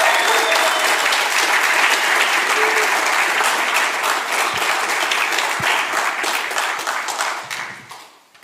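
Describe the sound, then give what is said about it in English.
An audience applauds to welcome a preacher at a morning church service. Dense, steady clapping holds loud throughout, then thins and fades away in the final second. “will you bless him with your hands? Will you make some noise for him and welcome him?”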